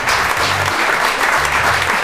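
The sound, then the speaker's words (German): Audience applause at the close of a political talk-show interview: a dense, steady clatter of clapping that fills the whole stretch at an even loudness. “Einen Applaus für Jacqueline Fehr.”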